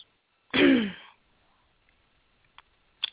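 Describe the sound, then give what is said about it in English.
A single short, gruff throat clearing, loud and abrupt, followed by quiet with a few faint clicks and soft noises. “that little clearing of the throat definitely was the answer.”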